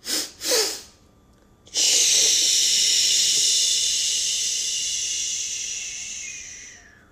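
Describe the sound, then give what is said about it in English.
A deep breath drawn in with a couple of quick pulls of air, then a long, steady, airy exhale blowing out all the air and slowly fading over about five seconds, with no talk. “The second breath in, you really want to take a deep breath in and then blow out all the air. I'll do it one last time.”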